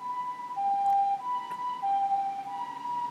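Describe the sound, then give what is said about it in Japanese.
An ambulance siren passes as a two-tone wail, alternating in a slow, regular pattern between a higher and a slightly lower pitch. It stays fairly faint and even throughout. “救急車が通る。”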